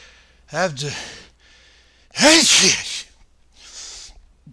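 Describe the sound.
A sneeze in two parts: a voiced, gasping intake burst, then about a second and a half later a louder, noisy explosive burst, followed by a faint breathy exhale.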